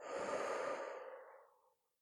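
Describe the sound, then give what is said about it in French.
Deep breathing in through the nose and out through the mouth during a calming exercise: one soft, faint, airy rush of breath that tapers off into silence in under two seconds. “Prends une bonne inspiration par le nez et une bonne expiration par la bouche.”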